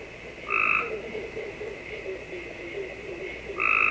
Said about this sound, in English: Ah, that's actually the gray tree frog. My bad. Here's Cope's.